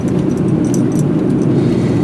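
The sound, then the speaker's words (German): A car drives along a rough back road, giving a steady, continuous low rumble of engine and road noise with no talk. “Und ja, ich fahre jetzt auch wieder auf dieser etwas abenteuerlichen Straße, die ihr in meinem letzten Video gleich zu Beginn gesehen habt.”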